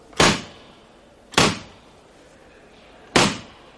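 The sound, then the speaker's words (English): School desk lids slamming shut, three sharp wooden bangs at uneven intervals, each with a short fading tail; no voices. “All those boys who let their desk lid slam, stand up.”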